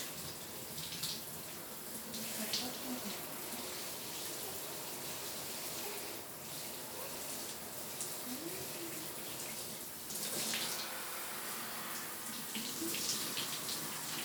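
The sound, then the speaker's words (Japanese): Shower water runs steadily while lather is rinsed away, making a soft, continuous hiss of spray that stays even throughout with no talk. “こちらのシャワーくすぐったいですか？”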